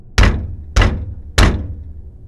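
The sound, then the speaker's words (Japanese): Knocking on a door: three heavy, hollow thuds, evenly spaced and loud, with nothing else between them. “じゃあもう一回ノックするのだ。”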